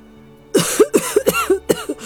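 A fit of harsh coughing from someone choking on black factory smoke: a loud string of short, voiced coughs in quick succession, with no speech.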